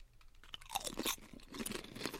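Someone bites into a sweet and spicy chip, giving faint crisp crunches followed by a run of softer chewing crunches, with no talk.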